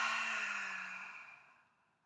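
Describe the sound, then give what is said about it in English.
An audible exhale through an open mouth makes a single long, breathy rush of air that starts fairly strong and fades steadily to silence over about two seconds. “Hold the breath at the top. Open mouth, audible exhale.”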